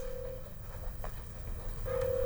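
A telephone rings as a listener calls in to a radio phone-in: two steady, mid-pitched tone bursts separated by a pause, over a low hum.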